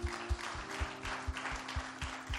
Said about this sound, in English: Would you clap to the Lord a praise offering?